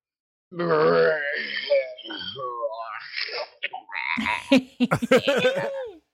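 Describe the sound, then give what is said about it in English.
A voice imitating a zombie with long, wavering, drawn-out moans and groans, then a run of short, choppy guttural grunts near the end. “The episode, Long Live King Jerry, and I get to do a zombie sound.”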